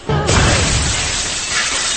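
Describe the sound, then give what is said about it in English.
Plate glass window shattering in a video game rooftop fight: a loud, sudden crash bursts in and then spreads into a dense, sustained spray of breaking glass and debris that carries on for about two seconds. “Threw it through a plate glass window!”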